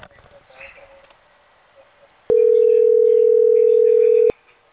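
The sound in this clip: Ringing tone on an outgoing telephone call: one long, steady, mid-pitched electronic beep lasting about two seconds, after a stretch of faint low background sound.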